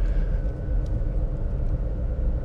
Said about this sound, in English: What am I doing? I'm driving down the street. Driving down the street.